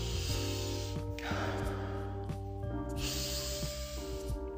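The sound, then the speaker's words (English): Deep breaths drawn slowly, with two long airy rushes of breath rising over sustained, steady musical tones. “Quiet your mind and take a few deep breaths.”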